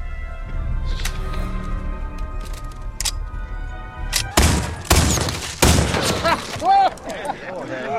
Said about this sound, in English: That's some fancy shooting there.